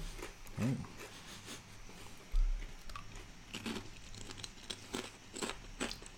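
Crunching of barbecue-flavoured potato chips being chewed: a few crisp, irregular bites and chews, fairly faint, with no talk over them.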